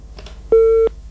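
A telephone busy tone sounds after a call is cut off: one steady, mid-pitched electronic beep that holds briefly and stops abruptly.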